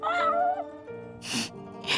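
Kitten meowing, a faint, drawn-out whiny mew with a wavering pitch, followed by softer harmonic sound broken by short breathy bursts.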